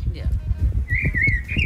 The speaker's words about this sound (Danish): Men en solsort, den havde sat sig lige for med vinduet. Og det var faktisk en dejlig lyd.